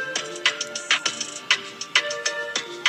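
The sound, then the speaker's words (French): A telephone rings with short, bright electronic tone bursts. They repeat in a steady rhythm about every half second, many pulses in all, and sound fairly clear with no voices over them. “C'est un téléphone, non ?”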